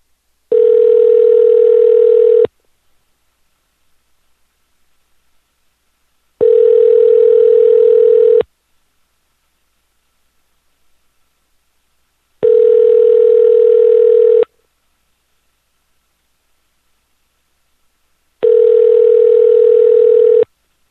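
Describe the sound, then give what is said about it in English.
Ringback tone of a telephone line while calling a toll-free 800 number: four steady, even tones, each about two seconds long, separated by longer silent gaps, with no voices. “Okay, let's call this 800 number here. See what we can get going.”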